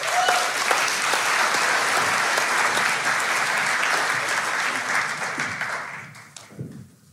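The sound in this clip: Congregation applause at a church service after a prayer, a loud, continuous patter of many clapping hands that holds steady for several seconds, then thins and fades out with a few scattered claps and a hint of voices at the end.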